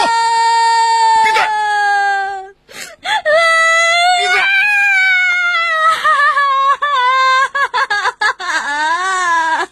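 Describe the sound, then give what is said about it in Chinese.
A young child crying and wailing, with loud, sustained tones that waver up and down in pitch and break off briefly a few times. “别哭。”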